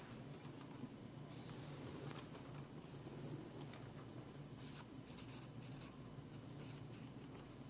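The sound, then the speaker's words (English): Pen or pencil writing by hand while a plan is mapped out, faint scratchy strokes in a few short bursts over a steady low background hiss. “So grace and peace. Here's where I need to start writing a bit.”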